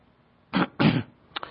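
Coughing and throat clearing from someone with something caught in the throat: two harsh bursts in quick succession, then a couple of short, sharper clearing sounds, with no talk.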